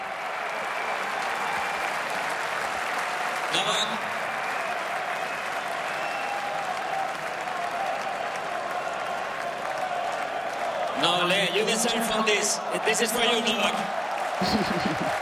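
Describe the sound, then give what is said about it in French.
Tennis crowd at a Novak Djokovic match chanting his Serbian nickname Nolé, a steady, dense roar of voices and applause, with a louder surge near the end. “Nolé, ce sont les encouragements du public avec le diminutif de Novak Djokovic en serbe.”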